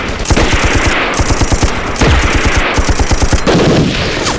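A heavy machine gun fires in long, loud, rapid bursts, each shot a sharp regular crack in a fast continuous rhythm that barely pauses throughout.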